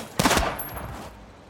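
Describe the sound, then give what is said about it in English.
Gunfire from a shootout in which two people draw guns and empty their magazines at each other. A rapid, loud burst of several overlapping shots is followed by a fading tail. “She draws her gun. He draws his. Two lovers unloading magazines at each other, willing bullets to hit flesh.”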